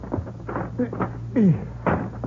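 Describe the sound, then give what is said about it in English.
Knocks and bumps of a window being opened, several light thuds followed by a louder scraping burst and a final thump. “Will you help me open this window?”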